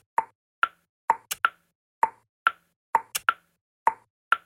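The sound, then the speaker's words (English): Click consonants from a South African language serve as percussion in a song: sharp, dry clicks alone, repeating in a steady rhythm with occasional quick doubled clicks, many in all. “A number of times in my soundtrack, I've used coarser click sounds, these type of things, as percussion. These are the sounds of the language here in South Africa. Here's how they sound in this song.”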